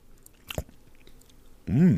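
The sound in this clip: Someone takes a spoonful of cooked food and bites into it, a short crunchy burst followed by quiet chewing.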